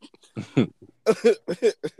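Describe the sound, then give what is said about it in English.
Coughing from a person, a few short rough bursts that come in uneven clusters, fairly loud against a quiet background with no other voices. “I'm still coughing.”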